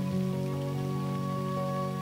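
Rain falls in a steady, continuous wash of hiss with soft patter throughout. Level and texture stay even from start to end.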